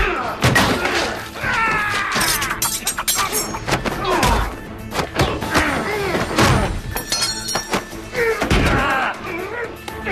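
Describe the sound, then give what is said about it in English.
A violent fight with a knife in a kitchen, full of heavy thumps, thuds and slams that land in rapid, irregular succession. Voices are mixed in, and the scuffle stays loud throughout. “They fight in the kitchen. What are you doing? Killing you, buddy. Henry lunges at Spencer with a knife, and they continue fighting.”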